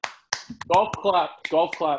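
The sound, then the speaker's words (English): A few soft, polite golf claps, sharp isolated taps scattered between stretches of people talking, offered to the winner of a golf trick-shot video contest. “golf clap there.”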